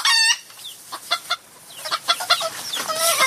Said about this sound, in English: I've got a rooster over here.